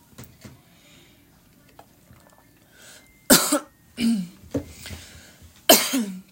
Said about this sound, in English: hold on, my throat is getting dry.